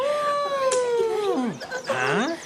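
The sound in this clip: A rooster crows with a drawn-out harmonic call that slides down in pitch, then gives a shorter, clucking call near the end.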